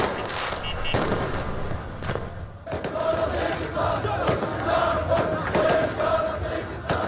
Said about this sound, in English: And here are the sounds of celebrations in the capital, Baghdad, on Wednesday night.